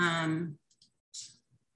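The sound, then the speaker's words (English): A computer mouse clicks on a share-screen button. A voice speaks briefly first, then a few faint, sharp clicks follow in near silence. “Since my time is almost up, I'd like to share my screen. I'm hoping that if I click the share screen, it will do that.”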